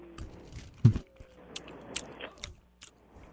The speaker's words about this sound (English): All right, I am trying the bacon-flavored peanuts right now.